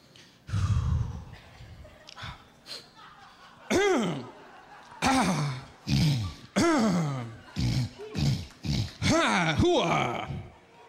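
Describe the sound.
A man performs a comic sore-throat poem made of throat clearing and hacking: many short, strained vocal bursts, often with falling pitch, come in an uneven rhythm after a few quieter opening sounds.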